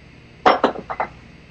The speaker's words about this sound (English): they already still had ambient temp on those aluminum molds. So we're gonna crack this open together.